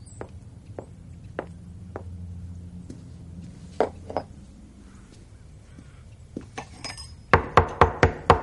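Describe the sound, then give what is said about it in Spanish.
Wine glasses and a bottle clink as they are set down on a table in a house. Scattered soft knocks come first, then a quick run of five bright glassy clinks. “Deja las copas y la botella sobre una mesa y abre la puerta.”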